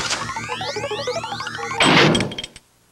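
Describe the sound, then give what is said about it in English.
A heavy vault door slams shut in a single loud, broad crash that rings briefly, then drops away to near silence. “The vault door swings open and Bruce takes a small packet from inside. He holds it up, showing it to the other men, then tosses it back in the vault and slams the door shut.”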